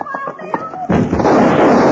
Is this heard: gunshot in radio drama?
yes